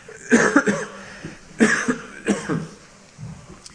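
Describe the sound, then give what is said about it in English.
Short, harsh coughs from someone with a troubled throat come in a few separate bursts, moderately loud with no talk over them. “Excuse me, I got something wrong with my throat.”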